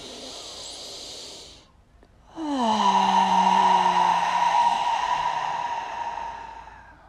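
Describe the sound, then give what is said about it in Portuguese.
Air pushed out through the nostrils in a breathing exercise: a noisy breath, a short pause, then a long, loud, airy exhale of about five seconds that slowly fades. “Tanto na inspiração quanto na exalação, eu vou usar as minhas narinas. Então, se você está preparado, tira todo o ar dos seus pulmões.”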